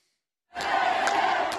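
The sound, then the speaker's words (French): Residents of Kherson cheer Ukrainian forces after the Russian withdrawal, a crowd roar of shouting voices that bursts in suddenly after half a second of silence and holds loud and steady. “Sur cette vidéo partagée hier soir par le président ukrainien Volodymyr Zelensky, les forces armées ukrainiennes sont acclamées par les habitants de Kherson, quelques heures après le retrait des soldats russes.”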